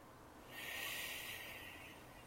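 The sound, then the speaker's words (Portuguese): A slow exhalation through pursed lips, as if blowing out through a straw. The faint, airy hiss swells in, holds for over a second, then gently tapers off, heard alone without voices. “E você vai soltar o ar como se você estivesse soltando o ar por esse canudinho.”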